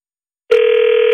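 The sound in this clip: A telephone line rings with a loud, steady electronic tone that starts abruptly after half a second of silence and holds at one constant pitch until the end.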